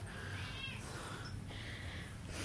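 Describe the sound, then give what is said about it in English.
A cat meowing for food, a few faint, short, high meows over a soft steady background hum, with no talking. “Feed the kitty, feed the kitty, feed the kitty, feed the kitty.”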